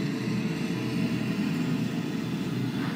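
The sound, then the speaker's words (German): Underwater propeller cavitation from a ship passing overhead, a dense, steady rushing hiss layered over a deep engine rumble, holding an even level throughout. “Jetzt hören wir auch dieses helle Signal, das ist Kavitation am Propeller. Jetzt ist es direkt über uns und jetzt fährt das Fahrzeug weg.”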